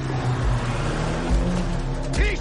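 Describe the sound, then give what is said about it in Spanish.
A taxi drives through a parking garage, its engine giving a steady, loud rumble broken by a few low, heavy thumps. “El taxi aparece frente a ellos. Dan media vuelta y corren.”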